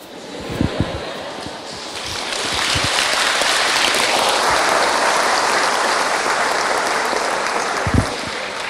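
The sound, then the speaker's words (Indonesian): An audience at a religious study gathering applauds. The dense, steady clapping swells to a sustained peak and holds, with a few sharper claps standing out near the start and end. “Boleh sekali lagi tepuk tangan untuk beliau.”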